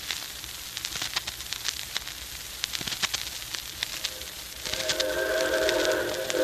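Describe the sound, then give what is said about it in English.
A Hudson type 4-6-4 steam locomotive arriving, with rhythmic chuffing and hiss under a broad rushing noise, then a sustained steam whistle tone joining in for the last part. “here she comes. Yep. Right on time. Yeah, it's a 464 type locomotive. Looks like a Hudson.”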